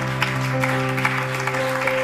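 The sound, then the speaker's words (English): Congregation clapping hands at a church service: steady, rhythmic claps over sustained held tones, with no talk. “Let's clap our hands for the Lord one more time.”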